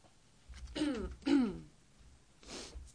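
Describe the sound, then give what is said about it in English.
A person clears their throat of something stuck in it: two loud, rasping clears, then a softer third one after a short pause, with no talking. “I feel like there's just something in my throat right at this moment, unfortunately, and I'll just take a moment to clear it.”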